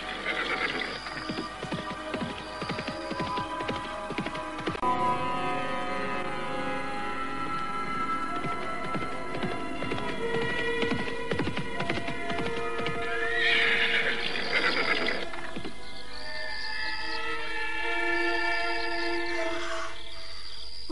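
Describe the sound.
A horse-drawn carriage rolls along with many rhythmic clip-clopping hooves, and a horse gives loud, high whinnying neighs later on.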